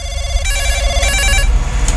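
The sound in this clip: A telephone rings with a bright electronic trilling tone in short repeated bursts, alone and fairly loud, over a low background rumble.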